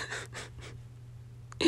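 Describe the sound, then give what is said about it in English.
Gasping for breath from someone who is out of breath and nervous: a few quick, breathy bursts, a short lull, then a sharper, louder intake of air at the end. “I jumped to a whole other topic. I was running out of breath.”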